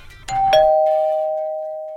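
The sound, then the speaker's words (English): A doorbell rings with a two-note chime, a higher ding followed by a lower dong whose clear tone rings out and slowly fades. “your doorbell is always music to my ears”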